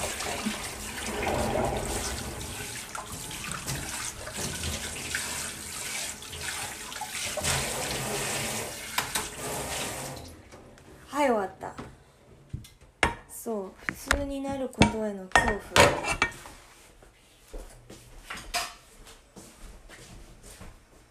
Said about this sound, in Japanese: めっちゃ水の音流れてるね大丈夫かな聞こえるかな今ちょっとマッハで洗うから